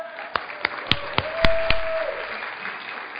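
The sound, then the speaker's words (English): Sparse applause welcoming people back: a few sharp, separate claps ring out one after another in the first half, then the sound trails off into quiet. “Let's give them a big hand.”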